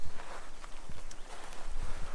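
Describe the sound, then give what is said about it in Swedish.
Footsteps walking downhill outdoors: a few irregular, soft crunching steps set against a steady background noise. “Nu går det nerför, jag går i förväg. Jag går i förväg.”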